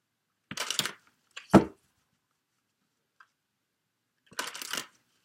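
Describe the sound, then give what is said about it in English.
Papery rustles and snaps of a card being drawn from an oracle card deck come as a few brief, crisp bursts separated by silence, with a longer gap before the final shuffle-like rustle. “I want to get a card from the Past Life Oracle deck for you”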